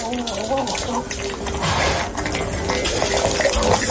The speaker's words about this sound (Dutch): Dit is mijn hond. Oh. Die zijn ontbijt aan het inhaleren is. Een gekookt eitje met vers vlees.